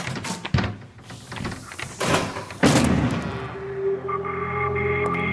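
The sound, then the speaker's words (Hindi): Heavy blows strike a door as it is broken down, a few loud, irregular thuds and crashes spread over several seconds with scraping and rattling between them. “माया लगता है दरवाजा तोड़ना पैना है।”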